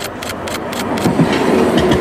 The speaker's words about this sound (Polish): Mamy tutaj krótkiego Hyundai'a, to jest najnowszy typ taboru.